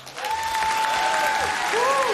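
Audience applause greets a returning performer on a live music stage: dense, steady clapping with a long, piercing whistle cutting through it, then a second whistle gliding up and down.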